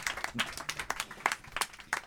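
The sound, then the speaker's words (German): Applause at a live audience show, many quick crisp claps in a steady patter, fairly faint and sparse, as if from a small crowd. “Das ist Applaus, ja?”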